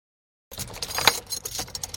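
Keys jangle and clink as a key unlocks the door to a chapel, a burst of bright metallic rattling and clicks that starts after a short silence and continues unevenly, with no voices.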